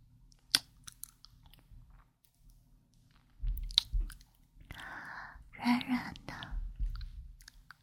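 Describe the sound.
ASMR mouth sounds of nibbling on an ear: soft wet clicks, smacks and chewing noises with breathy, whispery air, scattered irregularly and quiet throughout.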